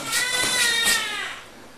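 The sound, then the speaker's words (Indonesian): A young child cries in one loud, drawn-out, high-pitched wail with strong harmonics, easing off toward the end. “Dia nangis. Nangis.”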